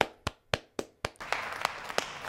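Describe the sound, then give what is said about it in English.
Hand clapping: five slow, sharp claps sound alone at an even pace, then quicker, denser clapping follows over a noisy background. “I can't do anything but clap in disgust, but still it's impressive right now.”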